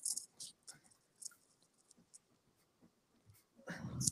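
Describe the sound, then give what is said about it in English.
Pen scratching on paper while drawing little rectangles, a few faint, brief strokes spaced apart, ending in a louder burst of scribbling. “So I'm just drawing little rectangles to represent shoes because I don't feel like drawing shoes all the way.”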